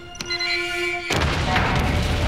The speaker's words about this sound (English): hits the overload button, and an almighty explosion rips the giant ship's engines apart